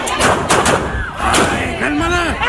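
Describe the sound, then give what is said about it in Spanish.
Mexican army soldiers fire a few sharp gunshots at the ground to deter an angry crowd confronting their convoy in Nuevo Laredo, Tamaulipas. The cracks come amid loud, overlapping voices. “Los soldados dispararon al suelo para disuadir a las personas que les reclamaban el supuesto abuso.”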